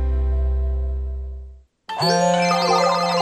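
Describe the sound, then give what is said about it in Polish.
Telephone ringing. A resonant electronic chime decays over about a second and a half, then after a brief gap a bright, steady multi-tone ring sounds loudly until the end. “Słyszysz? To tysiące przedsiębiorców właśnie odbiera telefon z nowym zleceniem.”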